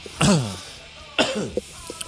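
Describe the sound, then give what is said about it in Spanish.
Two harsh, throaty coughs about a second apart, each trailing off into smaller rough catches, loud and alone with no talk. “Pediría perdón por las toses, pero es que voy a seguir tosiendo, ¿sabes?”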